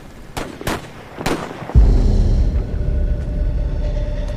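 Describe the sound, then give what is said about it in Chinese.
Gunshots as scouts run into enemy troops: three sharp, loud cracks in an uneven rhythm, followed by a heavier low rumble that lingers and fades slowly to the end. “我们刚刚听到了枪声，应该是我们派出去的斥候与敌人遭遇了”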